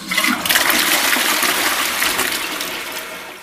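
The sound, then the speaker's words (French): A toilet flushes in one continuous loud rush of gushing water that gradually tapers off, with no talking. “Tire la chasse, je te dis!”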